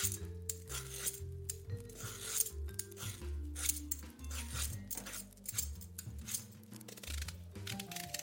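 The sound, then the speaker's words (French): Ripe pears being peeled and cut into quarters, many short scraping and snipping cuts in an uneven rhythm over steady low music. “D'abord, je finis mes épluchages et de les couper en 4.”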